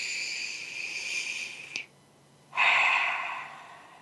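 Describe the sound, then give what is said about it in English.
Breathing during a guided breathing exercise: a long, airy, hissing breath fades into a brief silence, then a second strong breath starts abruptly and slowly tapers off. “And actually put one hand on your heart and one hand on your head. Let's bring all of you into this. One more breath.”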